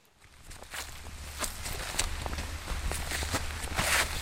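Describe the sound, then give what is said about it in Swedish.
Footsteps climb a steep slope in a garden toward an apple tree: a quiet, steady series of soft crunching and rustling steps. “då går vi upp för din branta slänt här.”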